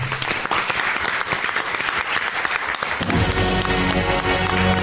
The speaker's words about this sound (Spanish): Un gran aplauso para todos vosotros.